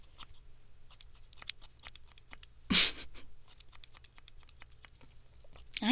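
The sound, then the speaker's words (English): Scissors snip hair in a home haircut given by a partner who has never cut hair. Many quick, faint, crisp snips come in an uneven rhythm, with a brief louder rustling burst partway through. “A haircut by your significant other who has never cut hair before.”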